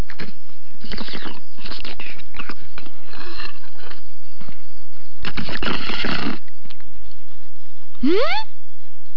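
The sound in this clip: Soft tofu sucked up through a drinking straw: several bursts of wet slurping with pauses between, then a brief rising squeak near the end.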